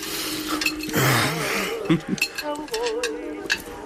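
A fork clinks and scrapes against a plate as a wounded soldier eats in a military hospital ward. Light metallic taps come at an uneven rhythm, with a few sharper clinks standing out.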